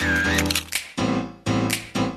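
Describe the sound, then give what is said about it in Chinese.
Camera shutter clicking, sounding as a few crisp, loud clicks in quick succession over a continuous tonal background. “咔嚓咔嚓，美好的事物就用相机拍下来，”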